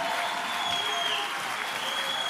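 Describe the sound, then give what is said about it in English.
A church audience clapping their hands during worship: dense, steady applause from many people, loud and even throughout. “lift up your hands, lift up your voices, clap your hands, and give God praise.”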